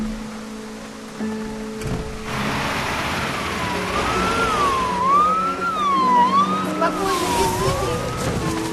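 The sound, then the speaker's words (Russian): An ambulance siren wails as the vehicle pulls up in the rain beside an aircraft. After a few seconds the rising-and-falling wail enters over a steady low rumble and hiss and grows somewhat louder. “Подъезжает машина скорой помощи.”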